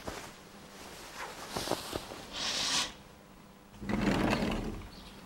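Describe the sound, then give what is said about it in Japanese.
A window slid open, heard as quiet, rough scraping rushes over a faint background hiss, with one short slide followed by a longer, louder one. “いいから窓開けて覗いてみ。”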